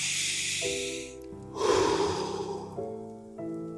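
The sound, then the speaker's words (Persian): A single deep, airy breath swells and fades over soft, sustained music tones, with the music continuing steadily before and after it. “همزمان دم و بازدم هاتون رو عمیق کنید”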